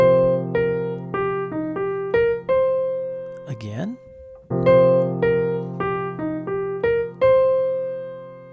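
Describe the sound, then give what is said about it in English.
Jazz piano arpeggio from the root, first descending and then ascending in pairs of eighth notes, heard twice with a single spoken word in between; crisp piano notes with a longer held tone closing each pass. “Our descending ascending arpeggio from the root sounds like this.”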